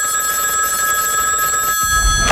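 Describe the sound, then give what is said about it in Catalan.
Telephone ringing with a steady, bright electronic bell tone that sounds continuously and loudly, alone without voices. “va rebre una trucada de Maurici, el de los Pallaresos”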